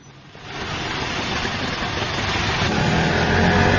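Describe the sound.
An auto-rickshaw engine runs past midnight. Its rough mid-low drone swells after the first half-second and then holds steady and loud. No voices are heard.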